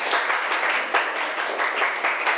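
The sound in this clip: Students in a classroom clap for themselves after a group activity: brisk, busy applause from many small hands, swelling in a few louder bursts but staying continuous throughout.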